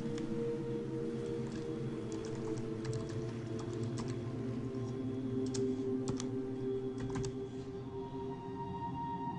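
Someone types on a computer keyboard: many light, scattered keystrokes in irregular bursts over a steady low hum, faint throughout.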